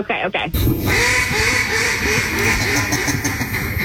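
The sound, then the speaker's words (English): A duck call being blown gives a loud, rapid run of many raspy quacks that carries on steadily to the end, after a brief burst of other noise at the start. “Yeah, we know it's a duck call.”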